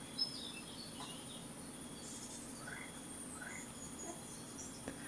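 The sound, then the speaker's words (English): Soft, steady chorus of night insects humming on a warm night, a faint continuous background with scattered light high chirps and no louder events standing out. “Off in the distance, you hear an owl call, and there is a pleasant, soft chorus of night insects humming in the background.”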